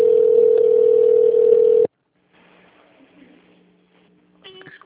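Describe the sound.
A steady, single-pitched telephone line tone sounds while a call to an automated phone menu connects. It holds for about two seconds, cuts off abruptly, and leaves faint line noise behind.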